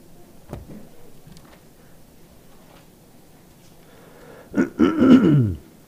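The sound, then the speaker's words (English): A person clearing their throat with one short, rough, gravelly burst near the end. It follows a quiet stretch with only faint small noises. “Apologies, I will probably be clearing my throat the whole service.”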